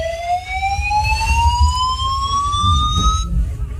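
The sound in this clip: A building evacuation alarm sounds as one loud electronic tone with bright harmonics. It sweeps slowly upward in pitch and cuts off just before the end, over a low rumble.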